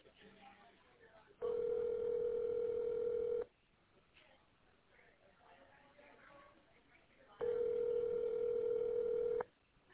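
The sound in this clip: A telephone ringback tone sounds as an unanswered call rings out: two long, steady, loud tones separated by a several-second pause filled with faint background murmur.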